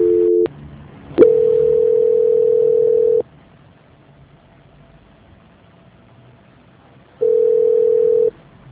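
A telephone dial tone sounds during a call transfer: a steady, fairly loud tone comes in bursts, with a short one, then a longer stretch of about two seconds, a long quiet gap, and a final brief return.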